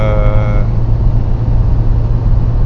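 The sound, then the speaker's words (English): Steady low rumble of a car interior on a winter drive in Denmark, with a constant engine and road drone that stays even for the whole stretch. “but I probably have about 40 minutes of drive in front of me.”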